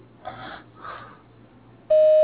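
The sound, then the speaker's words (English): Voicemail message tone: two brief muffled bursts, then a loud, steady electronic beep that starts abruptly and holds at a single pitch to the end. “Please leave a message at the tone, and I will return your call as soon as possible.”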